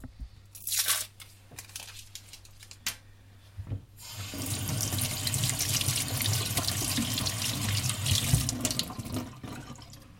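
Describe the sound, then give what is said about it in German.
Water from a running kitchen tap splashes over a cucumber being washed; a few sharp handling clicks and rustles come first, then a loud, steady rush of water with small fluctuations continues to the end. “Dann kann ich schon mal die Gurke waschen.”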